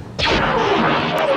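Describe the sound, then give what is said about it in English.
A Taim and Bak XX9 heavy turbolaser firing in a Star Wars sound effect: one sudden sharp blast bursts in, then a bright crackling wash follows, with a tone that slides downward as it rings on. “The XX9 Heavy Turbo Laser has a very distinctive sound.”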